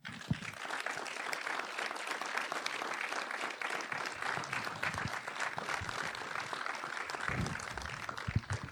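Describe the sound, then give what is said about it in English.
Sustained applause from an audience welcomes Werner Herzog to the stage. It is a fairly soft, even, continuous patter of many hands that holds steady for about eight seconds. “Uh, ladies and gentlemen, help me welcome to the stage the genius Werner Herzog.”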